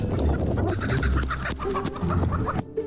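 A flock of chickens on a mountain farm clucks in a busy, overlapping chorus of short, throaty calls over a steady low background rumble, with the activity continuing throughout.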